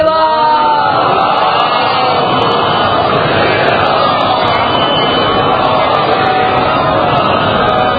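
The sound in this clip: A large crowd shouts a religious slogan in unison during a sermon, a loud, dense, continuous roar of many voices.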